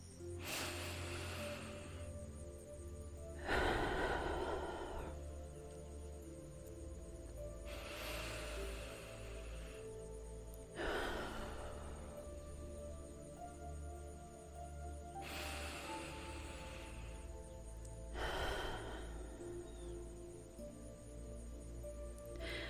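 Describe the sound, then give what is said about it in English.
Slow, deep breathing: a series of soft, airy whooshes separated by long quiet pauses over a faint steady hum, each breath swelling and then easing off. “So join me by taking three deep, beautiful breaths.”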